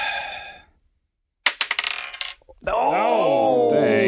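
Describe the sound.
Dice clatter in a tabletop card game, a quick burst of many sharp rattling hits tumbling to a stop. Voices are heard before and after the roll.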